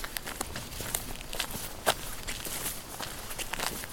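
Footsteps of someone hurrying over: many quick, light steps with faint rustling and crunching underfoot, soft and steady over four seconds.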